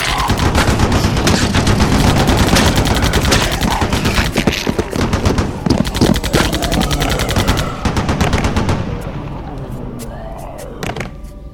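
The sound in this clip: Heavy gunfire in an audio-drama battle: loud, rapid automatic bursts and shots fire almost continuously for several seconds, then the shooting thins out and fades into a quieter tail.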